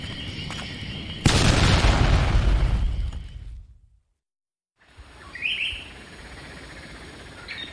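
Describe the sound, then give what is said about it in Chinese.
A watchtower is blown up with explosives: a sudden loud blast gives way to a rumbling roar that fades over a few seconds. After a pause of near silence, birds chirp. “弄点炸药，把这岗楼给我炸了。”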